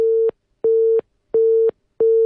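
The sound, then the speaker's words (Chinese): A telephone busy tone sounds after a radio call-in caller's line dropped: four steady beeps at one mid pitch, evenly spaced with short silent gaps between them. “这位朋友掉线了，没关系，我们请联系一下，把这位朋友的电话呢再给接进来啊”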